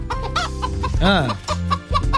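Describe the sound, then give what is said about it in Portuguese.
A hen clucks in a radio studio: loud, repeated clucks with a longer, drawn-out squawk near the middle, then more short clucks. “É a Gilda, a nossa galinha vidente, que vai dar o resultado do jogo Brasil e Marrocos.”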